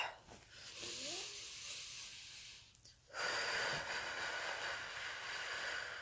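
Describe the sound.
A person takes a deep breath, heard as long, quiet, airy breathing sounds with a short gap partway through and no words spoken.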